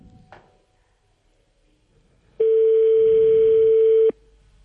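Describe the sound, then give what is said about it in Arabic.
A telephone ringback tone sounds on an outgoing call to a local commune office: one steady, even-pitched tone lasting under two seconds, preceded by a brief click and otherwise quiet line noise. “كان الرقم يرن، جماعة سيدي العيدي”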